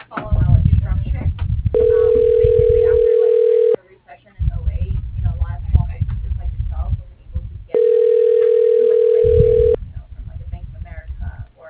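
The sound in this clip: Ringback tone on a telephone line calling an internal office extension: two long, steady buzzing rings, each about two seconds, with muffled talk before and between them.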